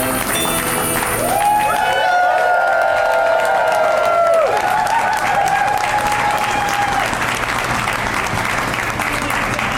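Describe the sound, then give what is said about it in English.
An audience claps along to a Christmas song with dense, loud applause and crowd noise throughout. Sustained musical tones ring over the clapping in the first half. “Isn't that weird? The Christmas song is so hard to clap along to.”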